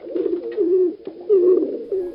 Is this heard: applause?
no